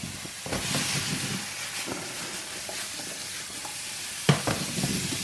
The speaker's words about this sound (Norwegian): Nå er du ser det begynner å bli brunt, så tar jeg i potetene. Hele poteter. Hele ukokte poteter. Ja. Og, og smør. Så masse smør.